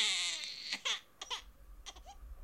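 A newborn baby girl cries in a series of short, high wavering wails and whimpers, broken by brief pauses and with no talk over them.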